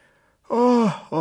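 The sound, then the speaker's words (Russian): A woman yawns, a voiced, drawn-out breath whose pitch slides downward before fading, followed by a short second voiced breath. “Как бы зевает она.”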